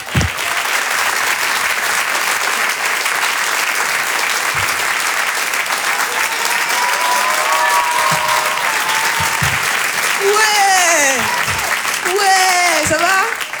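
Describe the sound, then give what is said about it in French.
Loud, sustained applause from the audience at a French comedy show, a thick even wash of clapping throughout, with a voice starting to talk over it near the end. “On peut l'applaudir très très fort lui aussi, Paco Pérez sur les chansons.”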